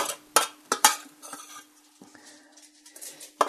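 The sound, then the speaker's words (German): Paprika is added to a warm pan and stirred, with a few sharp clatters of a utensil against the pan and a faint sizzle in the quieter stretches between them. “Dann tue ich hier den Paprika drauf.”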